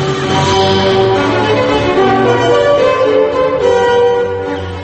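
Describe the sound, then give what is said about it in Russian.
Classical music by Leopold Mozart: layered, sustained tones with rich overtones, held at a steady, fairly loud level throughout, with no voices. “Так звучит Моцарт старший, Леопольд.”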